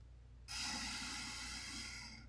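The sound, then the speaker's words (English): A deep breath taken during a self-regulating breathing exercise: a single sustained, breathy rush of air that begins abruptly and holds at a steady, fairly loud level until the end. “Let us both take deep breaths and count down,”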